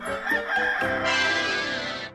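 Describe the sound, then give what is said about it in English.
Chicken clucking and a rooster crowing, a few short clucks leading into one long, loud, raspy crow that ends abruptly. “chicken. Chicken.”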